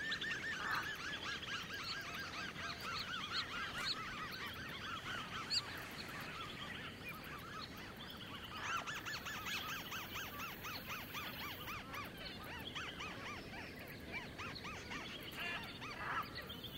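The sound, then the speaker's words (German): Many geese honk in a marsh lagoon in the early evening, making a dense, continuous chorus of overlapping nasal calls. The flock sounds fairly quiet and keeps an even level throughout. “Am frühen Abend besuchen wir das Sumpfgebiet.”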